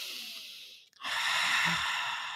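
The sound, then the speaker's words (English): Someone breathes audibly during a mindful breathing exercise. A long, airy hiss of breath fades out, and after a brief pause a louder, fuller breath follows and holds steady. “like these, like kind of like breathing with noise”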